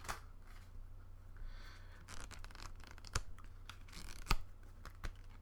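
Faint rustling and shuffling of folded index cards and a notebook being handled, with soft papery scrapes and a couple of sharper clicks, no voices.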